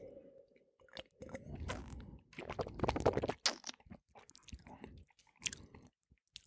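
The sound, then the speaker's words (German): Wet slurping and soft mouth sounds as someone takes a second sip of spring wine. A run of irregular smacks and gulps is heard, fairly quiet, with no talking. “ich muss noch einen zweiten Schluck nehmen”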